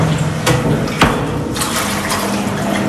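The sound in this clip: Liquid churns steadily as it is stirred during bottling, a continuous watery swirl with a couple of sharper splashes early on.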